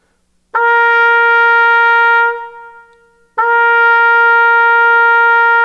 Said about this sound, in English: And then when I put the mouthpiece into the horn, it sounds like this.